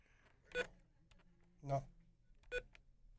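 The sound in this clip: Three short, faint telephone tone bursts, evenly spaced, sound on a phone line as an incoming call connects.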